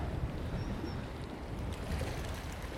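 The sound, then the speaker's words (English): Wind blows across a reservoir embankment on a bleak day, a steady, low, rumbling buffet of noise that stays fairly even in loudness throughout, with no one speaking. “Sadly, you can hear me above the wind noise.”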